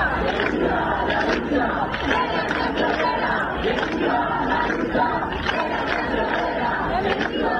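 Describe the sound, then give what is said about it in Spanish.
Around 600 people march through a street in Murcia against evictions and housing prices, a steady, dense crowd of overlapping shouts and chants with a constant mass of voices. “Anoche unas 600 personas salieron a la calle en Murcia contra los desahucios y el precio de la vivienda en la tercera movilización celebrada en menos de una semana.”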